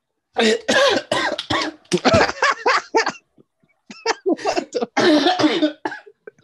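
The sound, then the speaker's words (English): Harsh coughing from a person choking after inhaling a drink: a long fit of many loud, raspy bursts in quick succession, a short lull, then a second flurry of coughs. “Oh my God. I've just inhaled my drink.”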